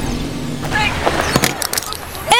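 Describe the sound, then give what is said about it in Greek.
A dropped mobile phone's screen cracking, heard as a few sharp, brittle cracks and clicks in quick succession, brief and fairly loud against a faint steady background. “Σου έπεσε το κινητό! Έσπασε η οθόνη!”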